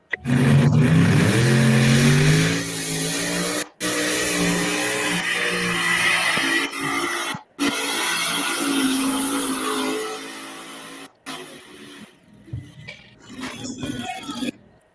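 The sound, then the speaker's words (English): Tractor engine running with a steady, throbbing drone and a harmonic whine, broken by a couple of brief dropouts and becoming uneven and quieter toward the end. “Is that Wayne's tractor?”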